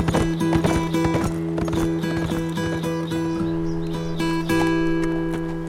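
Horse hooves clip-clop as a rider sets off on horseback toward the northwest, a steady run of sharp clops over a sustained tonal hum.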